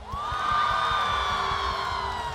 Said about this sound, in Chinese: 好，那么掌声给王思龙。